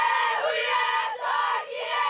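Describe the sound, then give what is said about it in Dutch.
A group of Maori performers chants a haka, a ceremonial war dance made for their team, with loud forceful unison voices that shout and chant continuously without a break. “Zij doen een haka, een ceremoniële Maori dans. En ze zien er indrukwekkend uit. Met open gesperde ogen komen ze op het publiek af.”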